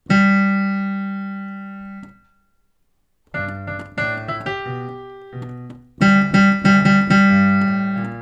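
A steady electronic tone gives the starting pitch for the bass part of a choir piece. It is held for about two seconds, then after a short silence a series of shorter plucked melody notes follows.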